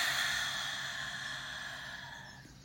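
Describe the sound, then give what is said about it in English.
A deep breath released at the close of a meditation: a long, soft, airy exhalation that holds steady and then slowly tapers off, with no voices over it. “Take one last deep breath in and release.”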